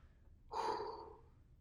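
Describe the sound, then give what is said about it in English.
A single deep breath, a soft breathy rush that swells suddenly and fades over under a second, heard alone with no talk. “take a deep breath.”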